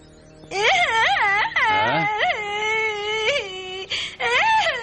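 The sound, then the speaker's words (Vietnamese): A person crying aloud: a few loud, drawn-out wailing sobs with strong harmonics and wavering, rising and falling pitch, separated by brief catches of breath. “Tại sao người lại khóc vậy?”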